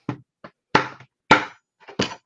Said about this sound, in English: these plastic ammo cans, the lids pop off, so I'm just going to pop this lid off.